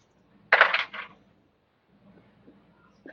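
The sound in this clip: Dice rolled during a tabletop game give a short clattering rattle in two quick bursts, followed by a few faint ticks as they settle.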